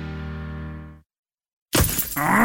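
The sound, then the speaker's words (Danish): Sharp crack of glass from a stone chip striking a car windshield, a damaged pane that spreads in the cold. A sustained tonal note fades out first, then after a pause of silence the loud breaking crack bursts in and keeps crackling. “Et steneslag! Det skal du få fikset. For en skadet rude revner lidt, når det er koldt.”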